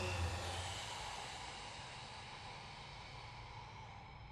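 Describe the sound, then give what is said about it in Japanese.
A long, deep exhale during a guided exercise breathing routine, heard as a smooth, breathy rush that fades gradually over about four seconds. “ラスト、吸って、はい、吐いて、”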